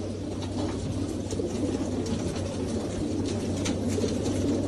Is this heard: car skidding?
no

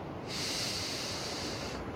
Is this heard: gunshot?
no

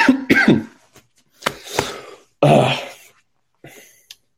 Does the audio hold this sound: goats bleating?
no

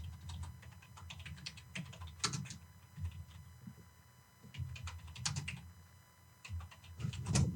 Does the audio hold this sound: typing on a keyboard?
yes

